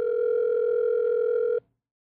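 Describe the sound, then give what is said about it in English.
Steady telephone dial tone, one unbroken pitched hum with faint overtones, holding evenly for about a second and a half before cutting off abruptly into silence. “It's dialing now.”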